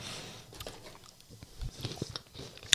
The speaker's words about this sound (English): okay, I want to try this cheese.